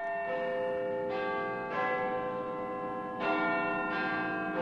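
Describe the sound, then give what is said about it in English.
Big Ben's clock bells in London chime the quarter hour in a short run of deep, ringing strokes. Each tone sustains and overlaps the next, with no voices. “That, of course, is London's Big Ben marking the quarter hour.”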